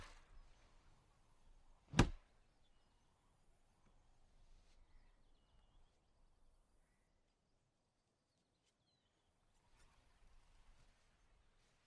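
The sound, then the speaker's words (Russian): One sharp, crisp chop rings out as a girl chops a tree near her house. It is a single loud strike against an otherwise faint, quiet background. “Девушка рубит дерево неподалеку от своего дома.”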